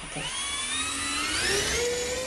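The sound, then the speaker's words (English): A small camera drone's electric motor and propeller spin up for a prop check on a dining room table, a loud whining buzz whose pitch climbs steadily across about two seconds. “Okay, and what I'm going to do is I'm going to start up the motor.”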